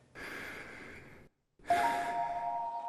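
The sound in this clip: Slow breathing during a mindful breathing exercise: two long, soft, airy breaths separated by a brief silent pause.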